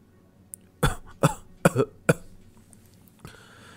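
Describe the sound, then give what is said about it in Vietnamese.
A wounded man has a dry coughing fit: four harsh, abrupt coughs at a fairly even rhythm, followed by a faint rasp. “Bát Giới đột nhiên ho khan một trận, khóe miệng sặc ra vết máu”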